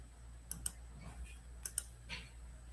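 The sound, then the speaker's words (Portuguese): Faint computer mouse clicks in two quick double-clicks about a second apart, crisp and light over a low background hum. “Gente, esse negócio hoje está... Estou clicando, não está abrindo.”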